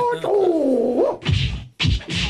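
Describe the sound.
Thwacks of a handbag striking someone in a comic attack, heard as a few dull, heavy blows in two quick clusters after a wavering, drawn-out tone.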